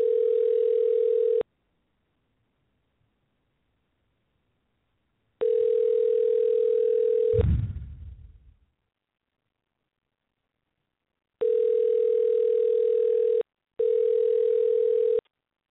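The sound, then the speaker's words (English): A telephone dial tone heard while dialing out: four bursts of a steady, mid-pitched tone separated by silences. A brief low rumbling noise follows the second burst, and there are no voices. “So let's try this. Dial out.”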